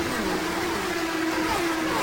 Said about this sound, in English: Here they come. The green flag is out, and the 79th Indianapolis 500 is underway.